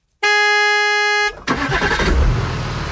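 A single long, loud, steady car horn blast in Vik i Sogn by the Sognefjord lasts about a second, then gives way to rumbling vehicle noise.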